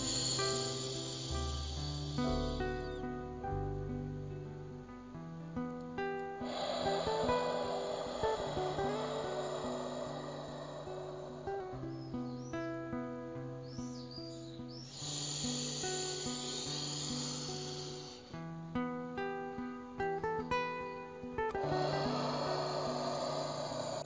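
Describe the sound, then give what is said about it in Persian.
Slow, deep breathing during a relaxation exercise, with long airy exhales lasting a few seconds each. The soft hissing breaths sit over gentle sustained tonal music. “بعد در موقع بازدم شکمتون کاملا خالی میشه، خالی خالی و 3 تا 4 ثانیه فقط بازدم، بعد یه مکس دوباره.”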